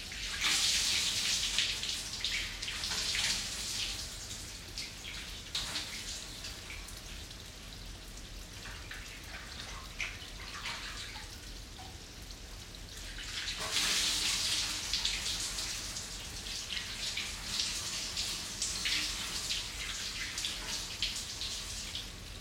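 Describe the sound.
Running water is poured to rinse, a steady hissing splash that runs in two long stretches with a quieter, thinner flow between them.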